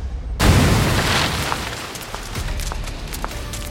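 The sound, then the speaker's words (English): A bomb blows out a wall with a sudden, loud, deep boom, then a long rumbling, crackling wash of falling debris that slowly settles and fades. “I'm going old school. Brought a bomb to take out the wall.”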